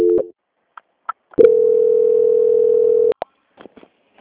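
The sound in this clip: A telephone call-transfer tone on a bank line: a brief beep, a few faint blips, then a loud, steady, mid-pitched tone held for nearly two seconds that ends in sharp clicks, with no talk.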